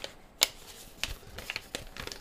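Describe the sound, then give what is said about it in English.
Crisp paper rustling and tearing as a stuck envelope with glued staples is pried open, with a sharp snap near the start followed by several short crinkles and scrapes, all fairly quiet. “It's envelope opening time. Oh boy, yes it is. God, this one is stuck.”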